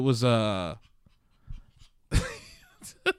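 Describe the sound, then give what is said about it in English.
Excited puppy panting in short, breathy bursts, alternating between louder stretches and quieter pauses, with no talk over it. “the puppy's very excited about Gears.”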